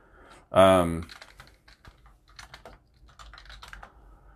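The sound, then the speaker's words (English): Quick, soft keystrokes on a computer keyboard as someone looks something up, an irregular run of light clicks that follows a brief spoken word. “Let's see if I can find it. All right, I could just type it in,”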